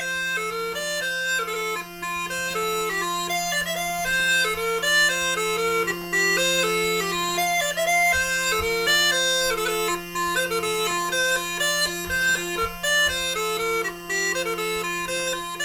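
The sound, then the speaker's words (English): Northumbrian pipes playing: two steady low drones sound under a quick, stepped, bright melody of short detached notes, played alone without voices. “That's the sound of the Northumbrian pipes,”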